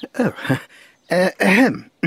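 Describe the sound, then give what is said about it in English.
A man coughs during dictation, a run of throaty, voiced coughs and throat-clearing in several bursts with short gaps between them. “When one is dictating, one should speak clearly and not cough. Besides, I can't spell a cough.”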